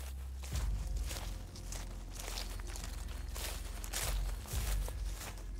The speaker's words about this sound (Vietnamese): Ông mò mẫm dẫm chân trên đám lá cây loạt xoạt đi sâu vào trong vườn.